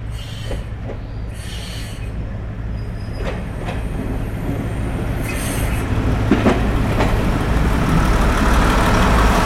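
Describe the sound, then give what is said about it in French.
A herbicide train moves through an international railway station with a continuous heavy rumble and rattling clatter that builds slightly, while thin high wheel squeals ring above it. “Et une activité intense ce matin à la gare internationale de Canfranc. Si, a venu un train herbicida.”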